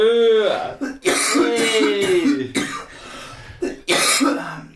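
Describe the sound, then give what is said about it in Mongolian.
Coughing and throat clearing from a person: loud, rough, voiced bursts that run almost continuously, broken by a few brief pauses. “За ханиал ганиал гараа.”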